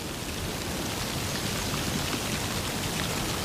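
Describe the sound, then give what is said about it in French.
Light, scattered rain falls near a ditch amid a heap of leaves, a faint, steady hiss of fine drops pattering evenly throughout with no other sounds. “Une fine pluie éparse s'écoule”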